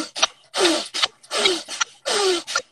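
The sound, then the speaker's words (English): A person imitates a bull's forceful nasal breathing, with three long, loud snorting breaths through the nose. Each is bracketed by a short, sharp intake, forming a steady in-and-out rhythm with no talk. “if I breathe in and out like a bull through my nose while my body is forward and my eyes are peering”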